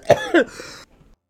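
Someone coughs after inhaling smoke: two short, harsh coughs followed by a brief raspy exhale that trails off into silence.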